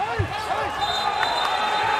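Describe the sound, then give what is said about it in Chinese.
A basketball is dribbled on the court during a game: a few low, thumping bounces sound beneath continuous voices of commentators talking. “后场球，小川敦也运球出界。”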